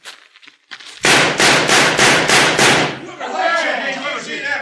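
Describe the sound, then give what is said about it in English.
Gunfire at a shooting target in a radio drama: a rapid, loud series of sharp bangs, followed by a voice speaking. “Look like there's only one new bullet hole in this target. All the other shots are from Kip Redden's gun.”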